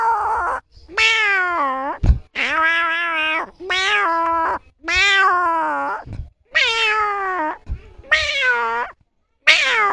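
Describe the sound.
A human voice imitates a cat meowing, giving a series of loud, drawn-out meows separated by short pauses.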